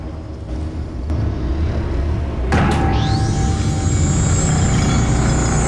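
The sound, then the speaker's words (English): A science-fiction sound effect of a massive spaceship drifting past a house: a steady, dense roar builds, then a sudden burst midway gives way to a rising whine that settles into a sustained high, bright tone. “Danny and Walter cover their ears at the noise and catch a glimpse of a massive spaceship drifting past the house.”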